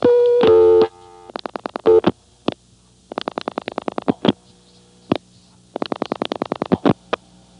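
Telephone exchange signalling on a no-test trunk reached after dialing: a steady tone lasting under a second, then several bursts of rapid clicking pulses separated by short silent gaps.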